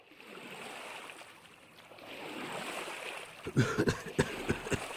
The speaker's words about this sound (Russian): Хью мигом перестал смеяться, отвязал лодку и столкнул ее в воду